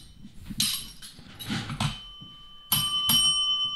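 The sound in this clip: A small bell rings in several bright metallic strikes, the final two loud with long, clear ringing overtones that hang after each hit, heard alone with no talk.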